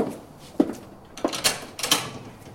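A door being shut, heard as a few short knocks and clunks of moderate loudness spread over a couple of seconds, with no voices.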